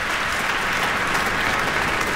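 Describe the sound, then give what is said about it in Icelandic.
Steady, dense applause from a concert audience after a solo sonata performance. It is an even, continuous wash of many hands clapping, loud throughout with no pauses. “hér linnir fagnaðalátunum og áhorfendur standa á fætur”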